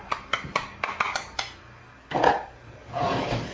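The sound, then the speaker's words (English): Cutlery clatters while someone searches for a small spoon. A quick run of sharp metallic clinks is followed by two longer, rougher rummaging clatters. “Get you a little spoon. Where's that little spoon?”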